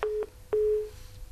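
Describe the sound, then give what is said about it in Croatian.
A few short, steady phone-line tones sound after a telephone call is cut off, the last held longer before fading, over faint hiss on the line. “Prekinula se telefonska veza.”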